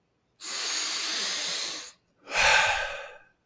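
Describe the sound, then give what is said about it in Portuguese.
An intense breath inhalation, shown as a technique for boosting energy: a long, steady hissing draw of air, then a short pause and a second, louder and rougher breath. “Se tu quer acelerar, tá com preguiça, quer acelerar, tu inspira mais intenso.”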